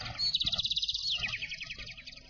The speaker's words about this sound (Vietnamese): Ngờ đâu trên trời xà xuống một đàn chim sẻ, ríu rít mổ lúa đặt sang một bên.